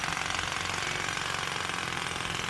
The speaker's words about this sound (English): Construction site. Here's a construction site. We all know these.